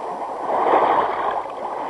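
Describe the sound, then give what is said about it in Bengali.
Water from a small, calm river running through a forest makes a soft, continuous wash with no clear changes, heard alone. “কেমন ছোট্ট শান্ত নদী, কাঁচের মতো টলটল করছে জল।”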